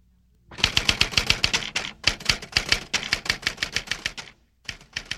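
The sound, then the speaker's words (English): Typewriter keys clatter in fast, sharp, even strokes, forming one long burst of many clicks and thumps. There is a brief pause near the end before a few final strokes, with no voices. “Listen, is this a typewriter? Yes. Yes, it is.”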